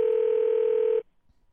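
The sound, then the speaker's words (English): Steady telephone dial tone as a phone line is opened to dial out. It holds at one even pitch for about a second, then cuts off abruptly, leaving near silence. “Dialing on the air. This is always exciting.”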